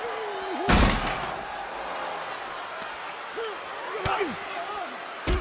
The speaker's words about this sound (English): Oh, and a gorilla press slam.